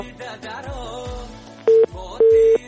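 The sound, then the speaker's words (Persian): A busy signal after a phone call is cut off: two loud, flat beeps at one steady pitch, the second longer, following a melodic voice. “متاسفانه که تماس آقای غفوری قطع شد.”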